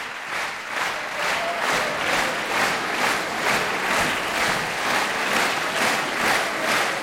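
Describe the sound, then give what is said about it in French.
Concert audience at La Roque d'Anthéron applauds to call the performers back on stage: loud, steady rhythmic clapping in unison, with evenly spaced beats throughout. “Vous l'entendez, Ludmila Bernskaya et Arthur Ancel sont rappelés par le public de la Roque d'Antero. Ils reviennent sur scène.”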